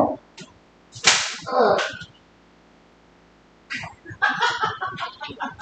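A straight dragon tail whip cracks, with a few sharp, bright snaps early on. After a quiet pause comes a quicker run of cracks and swishing movement.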